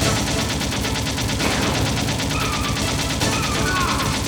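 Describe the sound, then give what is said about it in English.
Video game gunfire from an automatic weapon being sprayed: rapid, evenly spaced shots rattle on continuously at a loud, unbroken level. “I'm shooting him.”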